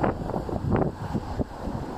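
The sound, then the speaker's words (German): Wind over the sea buffets and rumbles in low, uneven gusts, mixed with the wash of water in a steady roar with no voices. “Und jetzt lasse ich einfach den Wind, das Wasser, weitersprechen.”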